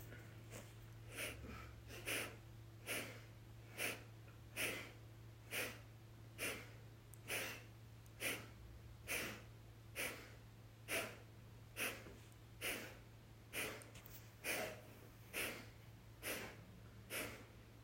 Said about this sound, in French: Voilà, on va commencer par un souffle à gauche, via le mantra, le son yam, et puis on alternera.